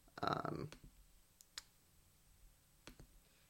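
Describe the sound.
A computer mouse clicks a few times, faint and irregular, with sharp little ticks spread apart after a brief burst of voice at the start.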